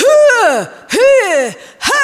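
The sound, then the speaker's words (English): A voice imitates tennis players' grunting breath noises: three loud, strained exhaled grunts, evenly spaced, each sliding downward in pitch. “if you watch tennis, it's one of the things our kids laugh at because they make the funniest noises. They're just like,”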